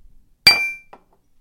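Glasses clinking together in a toast: a single bright clink with a ringing tail that fades within a few tenths of a second, heard alone with no talk.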